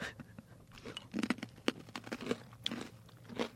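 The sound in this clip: Crisp crunching and chewing of cheddar cheese pretzels: many sharp, irregular crunches in quick bursts, with softer mastication between them and no talking.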